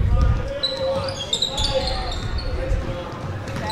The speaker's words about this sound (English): Hopkins still dribbling out front.